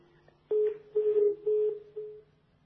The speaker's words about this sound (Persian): بله خب ایشون تلفنشون قطع شدن نتونستن سوالشون رو کامل بپرسن.